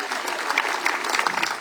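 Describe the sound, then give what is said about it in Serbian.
An audience applauds at a summer cultural festival in Kastav, with dense, steady clapping from a crowd at an even loudness throughout. “tek 35 let merita vaš pljesak”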